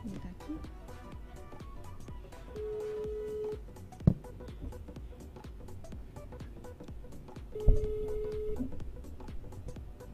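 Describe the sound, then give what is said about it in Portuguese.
An outgoing phone call rings back with two steady, mid-pitched tones about five seconds apart, each lasting around a second. People talk quietly throughout, with a couple of sharp clicks near the second tone. “Vamos ligar agora para Jorge Daniel, dono da página Signos Nordestinos.”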